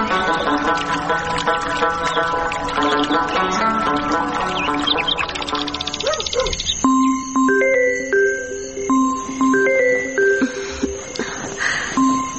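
A telephone rings with a melodic electronic ringtone of bright, steady beeping notes in a repeating pattern. It follows a denser, busier stretch of sound and carries on loud to the end.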